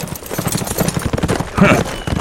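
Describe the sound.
Horses set off at a ride, their hooves clip-clopping in a quick, steady run of low thuds over a short stretch.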